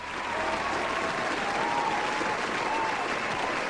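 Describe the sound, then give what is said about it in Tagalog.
An audience claps in steady applause, a dense, continuous wash of hand claps that stays at even loudness throughout without pause. “Palakpakan natin si Cecil Lombres”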